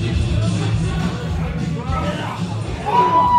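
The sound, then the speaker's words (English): A wrestling crowd at an XICW 202 Night of Champions event, rumbling with yells and whoops from many voices, swelling louder near the end. “Well, the crowd here at XICW 202 is glad to have him back.”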